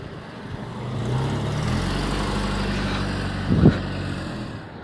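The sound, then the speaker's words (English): A car driving past on a hill street, a steady low engine rumble that builds slightly and holds, with a brief louder thump near the end. “that car that was parked. They just like rode right next to me.”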